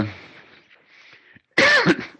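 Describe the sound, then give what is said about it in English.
Someone coughs and clears their throat after choking: faint, breathy rasps, a brief silence, then one harsh, loud coughing burst. “Excuse me, I choked.”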